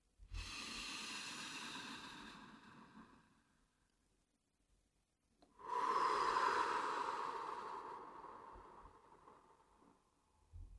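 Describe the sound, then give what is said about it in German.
Deep, airy breaths from a person doing a guided breathing exercise: two long, steady breaths separated by a short quiet pause, the second louder and fuller than the first. “halten. Einatmen.”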